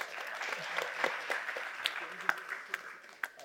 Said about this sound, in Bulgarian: Аплодисменти за теб.